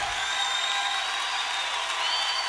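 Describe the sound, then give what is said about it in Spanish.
Applause from a church audience clapping to praise the Lord, a thick, continuous hiss of many hands at a steady level from start to finish. “adelante ese aplauso al Señor.”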